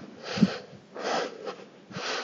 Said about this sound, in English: I'm a little under the weather and I can't breathe, so sorry for the huffing and puffing.